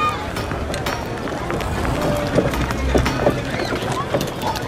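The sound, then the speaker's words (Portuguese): Hooves clop from a horse-drawn cart hauling several huge pine trees with their branches still on, moving along a wide, busy street. The beats are irregular and moderately loud over a steady, noisy background din. “Olhem essa carroça que vem aí. Traz vários pinheiros enormes a que nem cortaram os ramos.”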